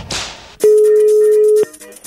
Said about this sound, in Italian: Ragazzi, è caduta la linea?